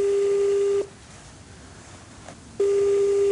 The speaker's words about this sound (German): Wir können sie jetzt anrufen.